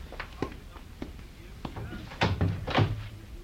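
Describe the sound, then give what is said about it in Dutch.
A door being opened after a knock: a few soft knocking thuds come first, then a louder, longer clatter of the door opening. “Dat wordt geklopt. Doe wel even open.”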